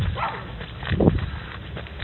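Dog barking, with one short bark standing out near the middle amid muffled low-level noise.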